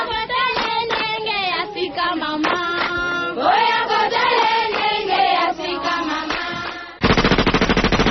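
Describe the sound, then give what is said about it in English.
A machine-gun sound effect, a rapid, dense burst of fire in the final second, cuts in after several seconds of rhythmic tribal-style music. “I want tribal style followed by a machine gun. Here you go.”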